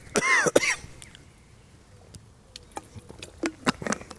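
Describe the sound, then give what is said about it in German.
Coughing after choking while talking: two harsh, loud coughs at the start, followed by faint scattered clicks and breathy sounds as it settles. “Entschuldigung, ich habe mich verschluckt.”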